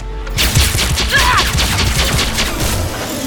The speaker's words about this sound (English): Let me try explosive rounds, see if I can crack those shields.